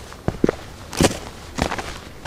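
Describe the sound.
Footsteps hiking uphill on the Südkyffhäuser geopath trail from Bad Frankenhausen: a few irregular, crunching steps with uneven spacing, some louder scuffs among softer treads.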